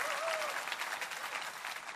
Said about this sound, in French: Come on, une bonne main d'applaudissement pour le Seigneur Jésus-Christ.